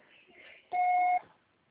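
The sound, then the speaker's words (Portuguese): An answering machine gives a single clear electronic beep lasting about half a second at a steady pitch. Faint, quiet sound comes just before it. “Grave o seu recado. Você só será tarifado após o sinal.”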